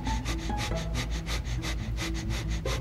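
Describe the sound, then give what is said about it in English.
Breath of fire, a rapid yogic breathing exercise done through the nose. It is a long run of many quick, evenly spaced, forceful breath bursts in a steady, driving rhythm. “Okay, so that's breath of fire.”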